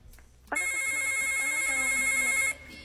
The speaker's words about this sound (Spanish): ¡Tenemos llamada! A ver, ¡hola!